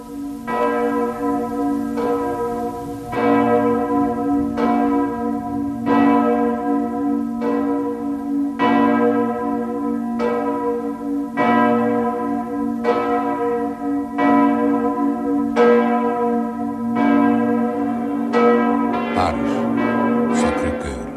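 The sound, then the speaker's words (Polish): Church bells ringing in Antwerp, many full strikes in a slow, steady, even rhythm, each one loud and resonant with a long humming tail that overlaps the next strike. “Życzenia nasze niechaj przekażą ci dzwony. Zaczynaj, Antwerpio.”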